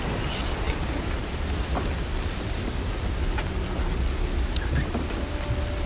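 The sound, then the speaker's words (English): Thunderstorm with heavy rain, a constant loud hiss of rain pouring down steadily throughout, with low thunder rumbling beneath it. “we're going to have to wait until the storm passes.”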